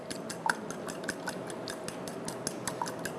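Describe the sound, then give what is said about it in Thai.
Light, rapid clicking of a fork beating ingredients in a bowl, with many quick, gentle taps against the dish in a steady, even rhythm. “หยิบซ่อมขึ้นมานะครับตีให้เข้ากันเลยนะครับเวลาตีก็ตีเบาๆนะครับอย่าตีแรงจนกระเด็นออกมานอกชามนะครับ”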